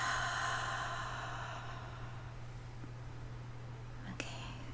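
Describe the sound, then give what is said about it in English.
A slow, deep breath in and exhale: a soft, airy breath that fades out over about two seconds, then quiet with a low, steady hum and a small click near the end. “Another deep breath.”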